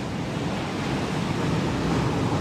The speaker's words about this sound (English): And that sound you're hearing, you may recognize, is the Atlantic Ocean.